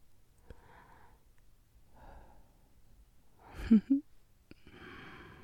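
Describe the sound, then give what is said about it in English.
Hot breath sounds close to the microphone: soft, airy exhales separated by quiet pauses, then two sharper, louder gasping breaths, followed by a longer breathy sigh. “Can you feel my hot breath?”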